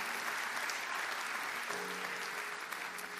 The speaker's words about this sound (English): Let's just put our hands together and welcome all of our guests to church today.